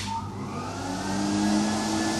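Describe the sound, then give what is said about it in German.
A powerful vacuum cleaner runs steadily, giving a continuous whirring drone over a low hum that grows slightly louder toward the end. “Geht der Staubsauger rein? Ja, bitte, steckt man halt gleich neu an, nicht? Der saugt wie der Teufel.”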